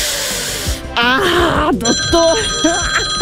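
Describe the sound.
A telephone rings during a quiz game, its steady electronic tones running through the second half beneath overlapping voices talking.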